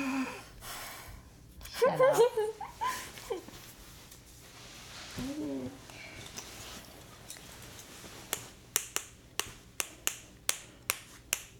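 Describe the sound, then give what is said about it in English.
A spoon tapped to make music: after voices and some laughter early on, a steady series of sharp, bright clicks ticks along at an even rhythm, loud against quiet surroundings. “You making music with a spoon? Yes.”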